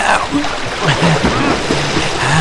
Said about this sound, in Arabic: يا إلهي ما أعظم هذا الموج.